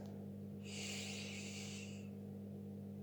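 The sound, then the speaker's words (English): A single deep breath drawn in, a soft airy hiss lasting about a second and a half, faint over a low steady hum. “We'll begin firstly by taking a deep breath in”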